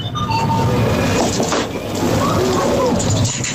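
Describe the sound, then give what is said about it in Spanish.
A coin-operated drinks vending machine runs as a selection is made and dispensed, giving a loud, continuous mechanical whir and rattle with scattered clinks. “Una máquina de dispensar, sí, de alimentos, vending, ¿no? Refrescos, de vending, hechas pero con monedas.”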